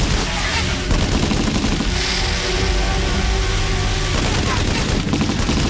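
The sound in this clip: Gunfire after an order to fire: loud, dense rapid shots mixed with a roaring engine, the noise staying strong and continuous throughout.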